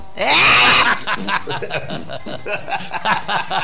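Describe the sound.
Harsh, raspy throat clearing from someone with asthma and a sore throat, a loud noisy hawk at the start followed by sputtering, chuckle-like vocal sounds.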